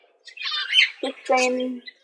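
Budgies and cockatiels squawking in an aviary: a couple of harsh, raspy bird calls, with a higher chattering cry leading into a lower, drawn-out squawk, moderately loud.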